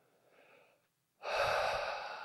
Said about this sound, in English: taking a big breath. Finding a sense of ease,